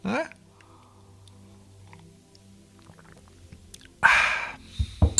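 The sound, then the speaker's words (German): After several seconds of near silence comes a short, breathy slurp of someone sipping tea, followed by a couple of sharp little clicks. “Aber kurz einen Schluck Tee trinken.”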